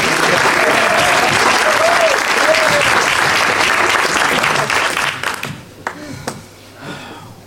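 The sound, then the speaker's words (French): Dense audience applause lasting about five seconds, with a voice briefly heard over it, then dying away to a few scattered claps. “Oh, un peu d'applaudissements pour nous.”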